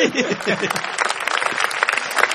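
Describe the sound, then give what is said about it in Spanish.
Applause at a wedding party: a dense, steady patter of many hands clapping at once, loud and unbroken throughout, with a few voices faintly mixed in. “Mire cómo aplauden igual.”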